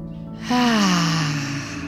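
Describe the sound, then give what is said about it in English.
A loud breath released during a relaxation breathing exercise, heard as a voiced, sighing exhale whose pitch slides steadily downward and trails off, following a quiet stretch. “letting the exhale get louder, breathing in.”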